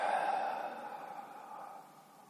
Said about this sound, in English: Exhale out through the mouth. Again, breathe in. Out through the mouth.